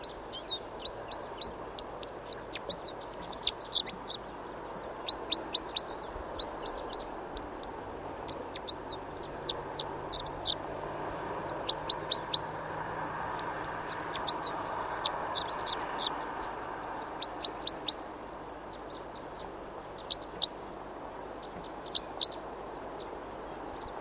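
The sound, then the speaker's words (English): Wild bird singing and calling: many short, high, sharp chirps and trills repeat irregularly throughout, standing out over a steady soft background hiss. “Here's another bird who's also singing and calling. Wild bird song.”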